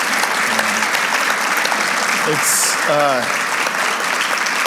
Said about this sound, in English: Hey, would you give these guys, especially Pam, a round of applause and thank her for